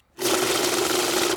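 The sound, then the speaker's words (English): A money counting machine whirs through a stack of notes, a dense continuous mechanical riffling buzz that starts suddenly, holds level for over a second and stops abruptly. “So I'm going to play the Sound of the Money counter 3 times.”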